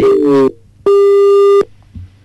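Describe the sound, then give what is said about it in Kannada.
Loud electronic telephone line tones as an incoming call is taken: a short buzzing tone, a pause, then a longer steady beep. “ಈಗೊಂದು ಕರೆ ಇದೆ sir, ಕರೆ ಸ್ವೀಕಾರ ಮಾಡೋಣ.”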